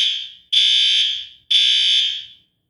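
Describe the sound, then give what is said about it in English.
A fire alarm sounds in a building with a kitchen below: loud, high-pitched electronic tones, about three long blasts of roughly a second each, separated by brief gaps, with no talk. “Well, that's the fire alarm.”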